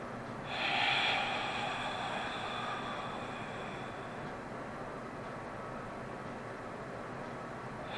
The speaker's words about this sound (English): Take some long, slow, deep breaths in order to center ourselves.